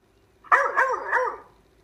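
A dog barks three quick times in a row, moderately loud, with the barks running together over about a second before fading.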